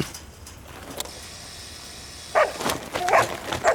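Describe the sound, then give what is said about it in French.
A Belgian Malinois barks a few times in the second half, sharp loud bursts over a low, steady background hiss. “Le monstre! J'ai horreur des chiens. C'est un malinois. Eh, fais gaffe, c'est méchant ces bêtes-là.”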